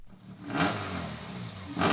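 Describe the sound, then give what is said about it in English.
Subaru rally car engine misfiring at a forest rally before the day's timed stages: a steady rough engine note with a faint uneven clatter, swelling louder in a rev near the end. “Dave Getchell is still having some problems with his Subaru. It's missing. Listen to it.”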